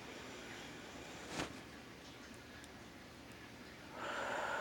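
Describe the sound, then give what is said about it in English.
A deep inhale taken during a guided meditation breathing exercise: faint and airy, with a brief nasal sniff early on and a steady, swelling breath of air near the end. “Let's do that again. Breathe in.”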